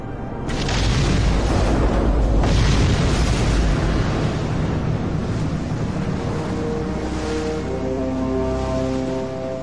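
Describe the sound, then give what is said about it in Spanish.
A deep, loud blast from an airliner exploding in mid-air at 14,000 feet over the Atlantic with passengers aboard. The roar starts shortly after the opening, swells into a second surge near the middle, and then rolls on as a sustained rumble with no voices. “El TWA-800 estalla con sus pasajeros en el aire.”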